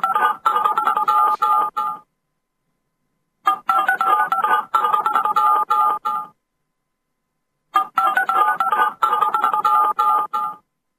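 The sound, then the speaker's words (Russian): A telephone number is dialed on a keypad, giving three separate bursts of quick, bright dialing tones with silence between them. “Все, звоню.”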